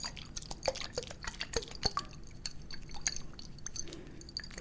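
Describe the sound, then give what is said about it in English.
Water trickles and drips into a face mask mixture during a skin treatment, a busy run of small wet clicks and splashes that stays fairly steady in loudness for the whole stretch. “So let's put some water.”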